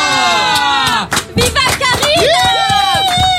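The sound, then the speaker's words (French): A crowd cheers and shouts a name in welcome, with loud overlapping voices, rising and falling calls and scattered claps. “celle que les gens accueillent en criant « Viva Karina » quand elle ouvre son micro. Viva Karina !”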